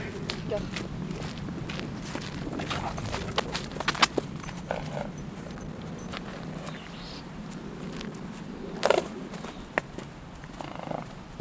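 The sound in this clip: A horse galloping, its hoofbeats falling as irregular, muffled thuds over a steady background of noise throughout.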